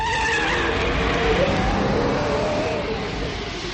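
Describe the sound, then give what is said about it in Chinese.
Motorcycle riding away, its engine a loud steady drone with a faint whining hum, easing slightly toward the end. “廖飞说完开着摩托走了。”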